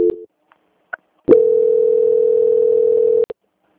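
Telephone tones during a call transfer: a short tone, a few faint clicks, then one steady, flat tone held for about two seconds that cuts off with a click.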